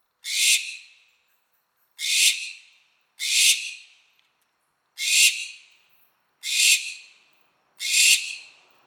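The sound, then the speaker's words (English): Barn owl calls: six harsh, hissing screeches, each under a second, evenly spaced with long silent gaps, loud and alone with no other sounds. “this is the call of the barn owl, not only the most widely distributed species of owl in the world, but one of the most widespread species of bird in the world.”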